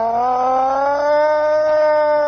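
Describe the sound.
A siren wails in one sustained, harmonically rich tone, holding nearly level with a slight upward drift for about two seconds, loud and alone.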